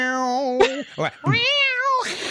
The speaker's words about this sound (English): No, it was more like a cat.